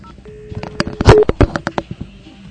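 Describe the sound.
Telephone keypad dialing tones as a call is placed to a company: a rapid string of short, bright beeps of varying pitch, sounding alone.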